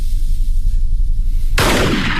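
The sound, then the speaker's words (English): A warning gunshot in a radio drama: one loud, sharp blast cuts in over a low rumbling background and leaves a broad, noisy decay. “Don't shoot, you bloody fool. That was a warning shot.”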